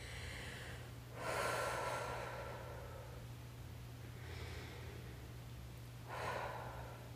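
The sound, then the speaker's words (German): Deep breaths drawn in through the nose and let out through the mouth, a few slow, airy breaths with quiet pauses between them, over a low steady hum. “darfst du jetzt die Augen schließen und 2-3 Mal tief durch die Nase ein- und durch den Mund ausatmen.”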